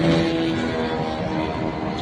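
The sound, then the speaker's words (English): A long-range drone launching gives a loud, steady engine roar with a buzzing tonal whine. The sound holds at an even level throughout without breaks. “This definitely appears to be one of their longer range drones that they ended up launching. And yeah, let's just watch.”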